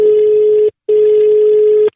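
Telephone ringback tone while a call goes through: two steady, mid-pitched beeps, each just under a second long, separated by a short silence.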